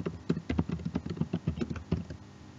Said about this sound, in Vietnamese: Giờ ở đây mình sẽ cần phải gõ lại cái password root hồi nãy mình đã thay đổi.